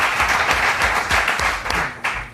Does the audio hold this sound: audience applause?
yes